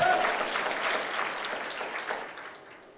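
A church audience in Bulgaria applauds during a sermon, a steady wash of many hands clapping that gradually fades toward the end.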